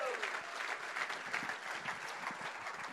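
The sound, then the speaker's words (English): A church audience applauds visiting pastors with dense, sustained clapping that stays even and fairly loud for the whole stretch. “any other pastors here, we just want to welcome you, honor you, and say hi. Hi, good to see you. Good to see you. Yeah, wonderful. Give these pastors a big hand.”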